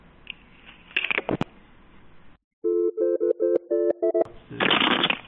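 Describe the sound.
A telephone handset slammed down gives a few loud clattering bursts, then a quick run of short, even electronic tone pulses, and a final broad burst of noise.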